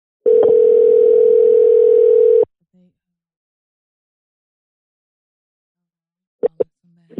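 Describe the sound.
A steady, loud telephone dial tone holds for about two seconds while a call is being placed, then cuts off to near silence broken by a few faint blips and short clicks.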